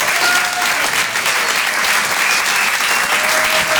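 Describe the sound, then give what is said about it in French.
A comedy club audience at the Apollo Théâtre in Paris breaks into steady, loud applause, a dense unbroken patter of many hands clapping. “Faites un maximum de bruit, s'il vous plaît, pour Guillaume Guisset.”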